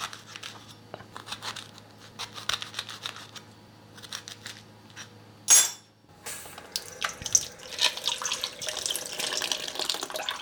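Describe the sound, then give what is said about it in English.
Water splashing and sloshing as seeds are pried out of partially quartered pomegranates underwater: many irregular small splashes and crunchy squelches, a brief louder rush of water near the middle, then continuous agitated sloshing. “Susan told me, and I'm gonna partially quarter them and then take out the seeds underwater.”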